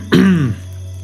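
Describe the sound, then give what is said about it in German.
Someone clears their throat once in a short, harsh rasp that drops in pitch and fades, over a faint low hum. “räuspert sich”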